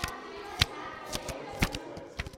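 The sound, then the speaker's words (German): Playing cards dealt out for a group card game at a picnic, heard as several soft, papery flicks and snaps at irregular intervals over a low steady background. “Sie teilen die Karten aus und beginnen zu spielen.”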